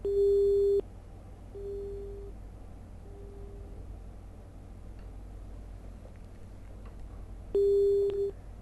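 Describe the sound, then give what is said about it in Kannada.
A telephone busy tone sounds on a disrupted call: four steady, mid-pitched electronic beeps, the first three spaced closely and the last arriving after a long pause, over a faint hiss. “ಕರೆಯಲ್ಲಿ ಅಡಚಣೆಯಾಗಿದೆ.”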